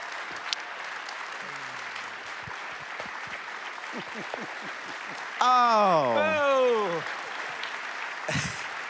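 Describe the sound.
An audience gives a standing ovation to welcome a pastor to the stage, with steady, dense applause throughout and a voice rising over the clapping midway.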